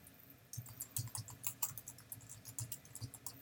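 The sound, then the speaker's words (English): Typing on a computer keyboard: a quick, irregular run of many crisp key clicks with a soft patter, heard alone without talk. “And I select this and click on the link item, and then I type in,”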